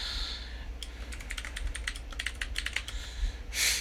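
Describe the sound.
Someone types a note on a computer keyboard, producing many quick, irregular key clicks at a fairly soft level with no voices.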